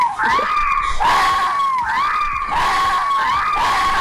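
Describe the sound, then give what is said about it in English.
A fox screams in a steady series of harsh, high, wavering cries, roughly one per second. The calls are loud and sound alone, with no talk. “coming out of your headphones is... The fox noise”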